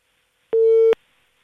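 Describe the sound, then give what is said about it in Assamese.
A phone line tone after a call is disconnected: one short, steady mid-pitched beep, loud and alone, with silence on either side. “Bhanita Kumar ওদালগুৰিৰ পৰা তেখেতে phone কৰিছিলে, কিন্তু যোগাযোগ বিচ্ছিন্ন হৈছে।”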